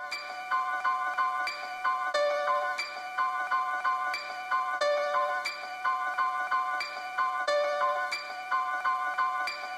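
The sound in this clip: Intro of an underground Italian rap track: a bright, bell-like melodic loop repeats in a steady rhythm over faint regular ticks, with no vocals yet.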